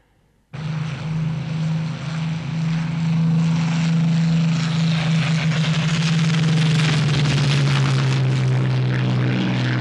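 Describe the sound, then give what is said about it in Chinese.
A military aircraft squadron takes off, its engines starting abruptly as a loud, steady roar that swells slightly and holds as one continuous drone throughout. “第六中队起飞了。”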